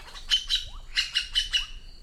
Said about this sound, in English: Magpie jays have an astonishing vocal system. Male magpie jays are the big talkers.